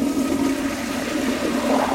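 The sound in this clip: An automatic sensor toilet in a public restroom flushes with a loud, steady rush of water that lasts the whole moment without a break.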